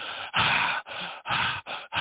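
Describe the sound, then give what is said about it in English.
Heavy breathing into a breath-sensitive microphone, in the manner of Darth Vader: a steady series of about six loud, hissing breaths, each separated by a brief gap, alternating inhale and exhale in an even rhythm. “Yep, doing your Darth Vader again. Darth is here. All right. I wish this microphone were not so sensitive to breath.”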